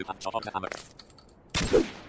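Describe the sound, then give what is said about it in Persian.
Enemy gunfire in a video game: after a stretch of talking, a loud burst of rapid shots breaks out near the end and carries on to the finish. “الان بهم تیر میزنه و من دوباره میپرم. پریدم و تیرش بهم نخورد.”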